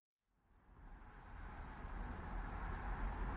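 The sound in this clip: A car driving on a road in California's high desert on a hot, dusty day gives a faint, steady low rumble of engine and tyres that fades in and slowly builds, with no voices.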